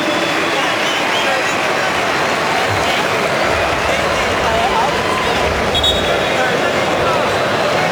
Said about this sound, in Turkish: İsveçli futbol severler de alkışlıyor Lewandowski'yi.